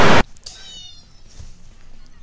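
A cat meowing sound effect, cued as a run-over cat, opens with a brief loud burst of noise, then a thin, high-pitched meow that trails off faintly.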